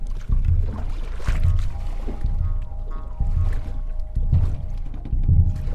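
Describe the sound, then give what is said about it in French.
Seawater sloshing as people slip into the ocean, heard as a series of low, heavy splashing surges repeating roughly once a second at a moderate level, with no voices. “Ils glissent dans l'eau.”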